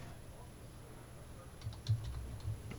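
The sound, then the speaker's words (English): Typing on a computer keyboard, a few soft, scattered clicks in the second half, faint against low background hiss. “I was typing.”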